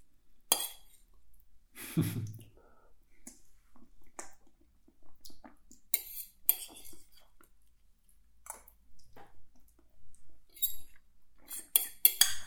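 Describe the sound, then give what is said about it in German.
A fork and other cutlery clink and scrape on a plate while someone eats. Light, scattered metallic taps come at irregular moments, separated by quiet gaps. “Das ist übrigens jetzt die letzte Gabel. Es hat sehr gut geschmeckt.”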